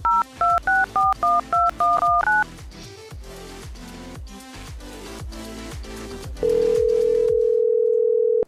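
Telephone keypad dialing tones: a quick run of short, bright beeps, followed by a stretch of lower murmuring tones and then a long, steady, unbroken tone at the end.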